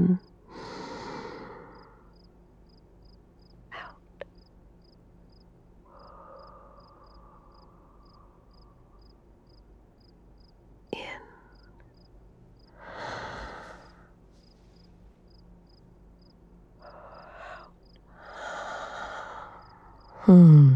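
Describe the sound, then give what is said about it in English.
Deep, slow breaths drawn in and let out to calm a panic attack, several soft airy inhales and exhales with quiet pauses between them and no talking. “Keep breathing with me.”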